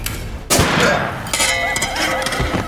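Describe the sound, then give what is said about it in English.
A gunshot from a pistol fired at point-blank range in a dramatized sci-fi story, one sharp, loud blast that cuts in suddenly and leaves a long, rumbling tail. “Point blank phosphor, ripping his helmet and skulls from his shoulders and flinging them across the deck. The shot is a brilliant, blinding white.”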